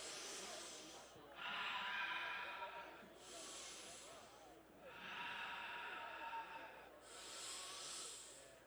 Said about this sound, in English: we're going to take 3 collective breaths together.